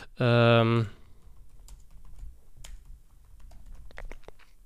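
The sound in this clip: Typing on a computer keyboard while searching for a tweet: a brief held tone at the start, then scattered soft key clicks, ending in a quicker cluster of taps.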